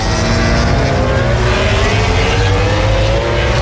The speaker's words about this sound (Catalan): Aquest és el so de MotoGP, el so del Gran Premi dels Països Baixos.